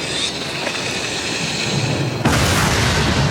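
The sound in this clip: An explosion in a war film, as Israeli soldiers under Hezbollah pressure blow up their own bunkers at a crusader fortress in Lebanon. A steady rumbling hiss gives way to one sudden, loud blast that holds as a heavy, broad roar until the end.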